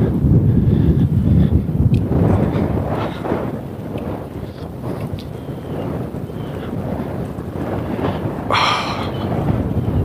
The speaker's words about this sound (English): And then you get into the wind, and the wind is like, ha ha. Fooled you. Kite flying weather.